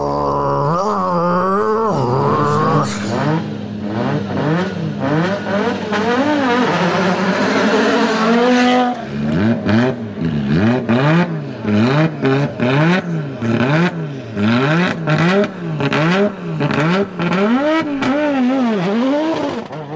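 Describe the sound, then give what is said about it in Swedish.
An Audi Urquattro Group B rally car engine revs hard, its loud growling note swinging up and down in many rapid blips, continuous throughout with a brief dip near the middle. “Ja, nu senast hörde ni Audi, men Yaris låter nästan exakt likadant.”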